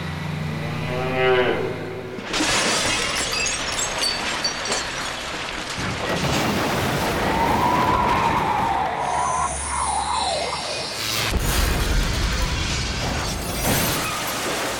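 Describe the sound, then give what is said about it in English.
A tank smashes through a fast food restaurant with a long, dense roar of crashing and rumbling debris and sharp bursts near the end, opened by a low, cow-like moo. “Right then, right through the McDonald's restaurant. Seems it doesn't exist anymore.”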